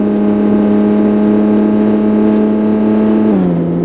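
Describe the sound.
A race car engine in a racing video game gives a loud, steady, buzzing drone at an even pitch, then drops lower just before the end.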